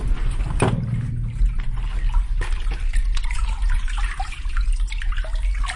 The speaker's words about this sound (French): Ça, c'est l'écoulement de l'eau dans le tube qui sert à irriguer les terres de Faja.